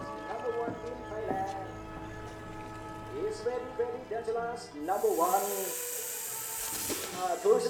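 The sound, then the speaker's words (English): Cobras hissing at a young snake charmer crouched in an open area among onlookers in Mae Sot, Thailand; a loud airy hiss swells midway and lingers while voices talk. “Surrounded by onlookers, a young snake charmer crouches alone in an open area facing two cobras.”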